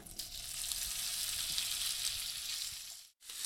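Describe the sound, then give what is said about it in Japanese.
Bacon and shimeji mushrooms fry in a pan with a steady, loud sizzle of dense hiss and faint crackle that holds throughout, then cuts out briefly just before the end. “ではこのブリを次に焼いていくんですが、その前にベーコンとしめじを焼いていきます。”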